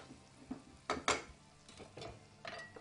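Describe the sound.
A mayonnaise sauce is stirred in a pan off the heat, with quiet scrapes and several sharp utensil clinks against the pan spaced irregularly, over near silence.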